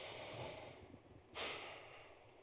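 A deep breath: a soft, breathy rush swells after a quiet moment and then slowly fades, faint throughout.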